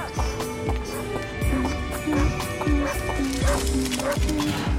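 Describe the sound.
A small blind dog barks over and over in a quick, sharp series of yaps, the barks recurring steadily throughout at moderate loudness.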